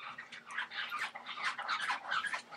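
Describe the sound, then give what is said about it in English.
A cat scratches at a door, trying to get in: continuous rough, rasping scratches in quick, irregular strokes, moderately loud and steady throughout, with no talk. “That's our cat trying to... I don't know if you can hear that, but our cat's scratching the door trying to get in.”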